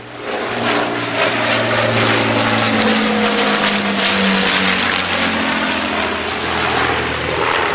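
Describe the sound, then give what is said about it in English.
Lancaster bomber engines roar in a loud, continuous propeller drone with a deep, throbbing low hum, steady throughout with no voices. “And this, the Lancaster, is one of the principal means by which those promises will be made good.”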